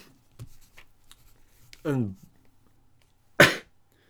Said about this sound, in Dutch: Je zit weer heel hard aan het hoesten, hè.